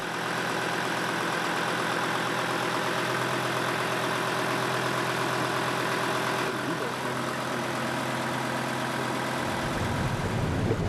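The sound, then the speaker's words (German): A boat's engine runs with a newly installed gearbox, giving a loud, dense, continuous mechanical drone with no speech. Its tone shifts partway through, and the deep rumble fades near the end. “Kurz vor dem Abendbrot ist das neue Getriebe eingebaut. Es läuft wie geschmiert.”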